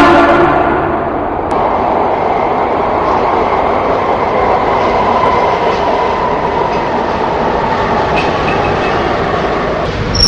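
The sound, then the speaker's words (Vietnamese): A train pulling into Lục Ô station makes a steady, loud rumble with rattling wheel clatter that holds evenly throughout, with no voices. “Cuối cùng tàu cũng đến ga Lục Ô.”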